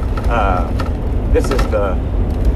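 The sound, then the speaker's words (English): Engine and road rumble fill the cab of a semi truck being driven, a steady low drone that runs throughout under a voice talking. “And, oh, by the way, I know that you can hear the background noise because I'm driving a semi.”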